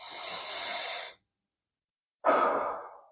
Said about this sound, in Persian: یه نفس عمیق عمیق بکش